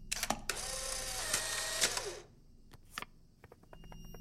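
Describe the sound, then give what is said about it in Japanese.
An instant camera taking a photo: a sharp click or two, then a loud mechanical whir lasting about two seconds, followed by a few faint clicks. “改めて写真を撮ることにしました。 じゃあ撮るわね。”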